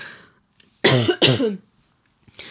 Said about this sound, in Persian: وای چه صرفه بدی کردم، گلوم خشکه.